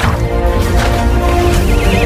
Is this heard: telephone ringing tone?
no